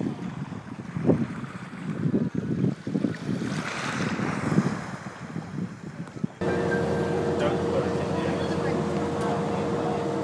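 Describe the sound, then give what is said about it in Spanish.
Wind and rushing water give way to the steady low drone of a small boat's engine as it leaves the harbour at Thirasia for the main port of Fira, a constant hum holding to the end. “este es el ruido del bote este al marcharnos de aquí, de donde nos estamos marchando, de Tiresia.”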